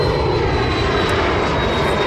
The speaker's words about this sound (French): C'est un jet.